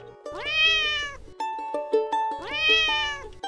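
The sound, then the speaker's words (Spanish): A very small, thin kitten gives two clear, high, wavering meows separated by a pause. Each meow is drawn out and fairly loud, and no talk is heard. “El gatito es muy chiquito, increíblemente flaco.”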